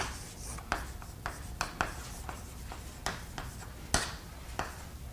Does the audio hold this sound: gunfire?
no